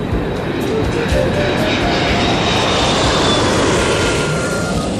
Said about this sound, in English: Good afternoon, ladies and gentlemen. This is your pilot speaking. We'll be flying at an altitude of 50,000 feet, so settle back, relax